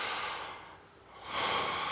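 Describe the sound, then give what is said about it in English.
A group of people drawing a collective deep breath in together, a soft, airy rush of many inhalations that dips briefly in the middle before swelling again, faint and without speech. “we want to just take a collective kind of deep breath in. Do it with me.”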